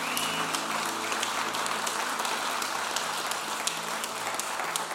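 A church audience in Des Moines applauds to welcome visiting guests from Denmark during a morning service. Steady, even clapping fills the whole stretch.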